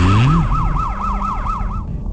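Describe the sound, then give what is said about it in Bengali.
A police car siren arriving, starting with a low rising sweep and then a loud, fast yelping wail that rises and falls many times in quick succession, alone with no voices. “এতক্ষণে একটা পুলিশের গাড়ি এসেছে”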